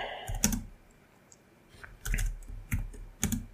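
Typing on a computer keyboard during a cut-and-paste shortcut on a PC: a few short, sharp key clicks in separate bursts, some grouped as quick double taps, with quiet gaps between them.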